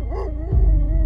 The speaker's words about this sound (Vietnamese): Đúng lúc này, tiếng con vàng ở bên kia nó sủa vang lên.